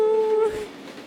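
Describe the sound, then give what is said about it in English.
A steam locomotive whistle holds a steady tone for about half a second, then cuts off, leaving a soft, breathy hiss that fades away. “we've installed a live steam locomotive in the station.”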